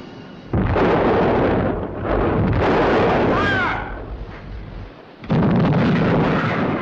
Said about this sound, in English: The Amethyst exchanges fire with the guns at the fort. Geysers of spray explode high into the air,